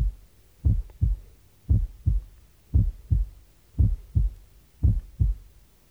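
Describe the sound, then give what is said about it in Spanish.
A heartbeat from an auscultation recording with a single, unsplit first heart sound. Five low, dull lub-dub pairs repeat at a steady, even rhythm, with no talk. “Primer ruido único.”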